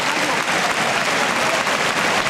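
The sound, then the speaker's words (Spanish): A bullring crowd gives an enormous ovation for a departing bullfighter: dense, loud, continuous applause from many hands, steady throughout. “La plaza ahora se ha dado cuenta y recibe la ovación. Enorme ovación.”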